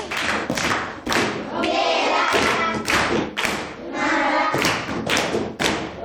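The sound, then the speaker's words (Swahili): Schoolchildren at a primary school clap together to congratulate a pupil, striking many loud, sharp claps in a rhythmic pattern with short pauses between bursts. “Au tubadilishe mfumo wa kupiga makofi?”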